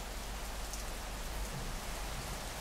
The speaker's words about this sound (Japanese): 雨が強く降り出した。